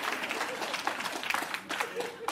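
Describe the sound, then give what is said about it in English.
Audience applause for a wife's cooking, a soft patter of clapping with a man talking over it. “we can clap for my wife's cooking.”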